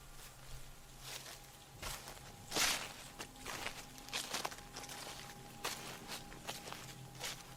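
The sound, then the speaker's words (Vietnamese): Footsteps pacing back and forth outside a wooden door, treading on sand and gravel during heavy rain; the steps come as faint, irregular soft crunches with no voices. “Chợt anh thấy ngoài cánh cửa gỗ tự dưng có tiếng bước chân người bước qua bước lại.”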